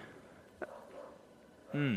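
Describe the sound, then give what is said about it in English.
A dog lets out one short, loud yelp or bark with a bending pitch near the end, after a stretch of low, murmuring background noise. “Apologies for the dog.”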